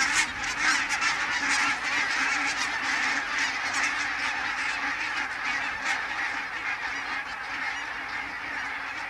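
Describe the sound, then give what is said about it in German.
Geese honk in a dense, continuous chorus, with many overlapping calls at a steady level throughout and no voices. “Hitchcock, die Vögel!”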